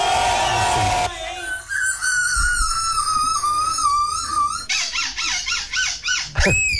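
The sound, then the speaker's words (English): People imitate seagull calls in turn, each voice mimicking the bird. First comes a noisy opening cry, then a long, wavering high call, then a quick series of repeated yelping squawks, and finally one sharp cry that sweeps upward. “This is human beings doing seagull noises. Impersonations.”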